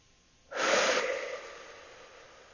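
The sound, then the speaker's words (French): A slow, calm breath during a guided relaxation exercise: one soft, airy rush of air that swells quickly, then fades away gradually, alone with no talk. “Une dernière fois, j'inspire tranquillement par le nez et j'expire lentement par la bouche.”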